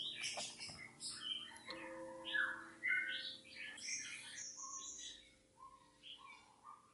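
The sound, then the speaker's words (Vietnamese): Birds sing outside at midday: many short, varied chirps, whistles and trills follow one another in an irregular pattern, quiet and alone, over a faint steady hum. “đang đọc trưa cho nên là chim bên ngoài nó hót ghê quá, hơi ồn. Hải Đăng nuôi mấy con chim, nó hót điếc cái cả tai”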